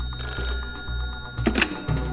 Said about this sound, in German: Anruf bei Bonnon.